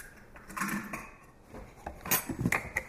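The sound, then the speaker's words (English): Eggs and egg substitute are mixed in a bowl for an omelet, with quiet, irregular clinks and scrapes of a utensil against the bowl and a few sharper taps toward the end. “I'm going to mix the eggs and egg beater, since I'm trying to be healthy, in a bowl.”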